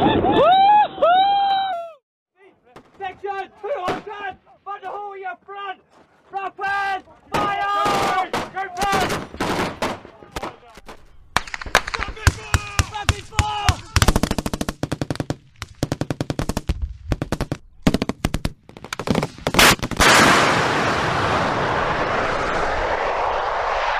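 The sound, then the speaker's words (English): Bombs exploding during a combat air strike, heard as a long run of sharp, loud blasts and rapid gunfire-like cracks that grow denser, ending in a sustained roaring wash of noise. “040 Alpha, confirm that's bombs dropping on Mazdrak.”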